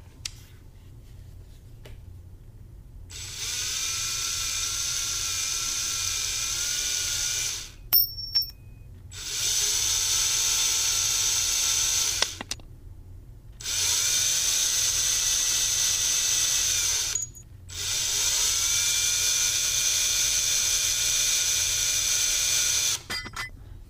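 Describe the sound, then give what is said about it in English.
Mechanical whirring of a screwdriver working at a locked door in a dark cellar, in four long steady bursts separated by short pauses, with a few sharp clicks between them. “The door is locked, so I'm gonna use my handy-dandy screwdriver and try and get in there.”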